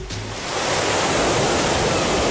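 Ocean waves wash onto a beach in a steady, rising hiss of surf that swells and then holds as a dense, unbroken roar.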